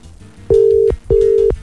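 Two steady, mid-pitched telephone tones, each just under half a second with a short gap between them, as a phone is dialled to call someone's mother. No voices are heard.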